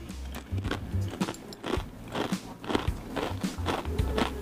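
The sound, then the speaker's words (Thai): Crispy Thai rosette cookies (khanom dok jok) are bitten and chewed, producing many crunchy, crackling snaps in a steady rhythm with no talk over them. “งั้นขอกินขนมดอกจอกกรอบเลย”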